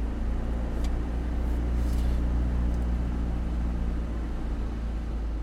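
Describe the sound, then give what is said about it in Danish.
A car drives along a canal in Almere, giving a steady, low engine and road rumble that holds even throughout, with no voices. “Vi kører langs en kanal nu i Almere”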